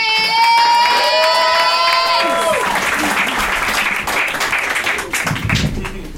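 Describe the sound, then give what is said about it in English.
A live show audience applauds loudly as a performer is welcomed to the stage. Sustained clapping runs throughout, and a brief tonal chord sounds over the opening seconds before fading out. “You guys, give a round of applause for the delightful Ben Harkins!”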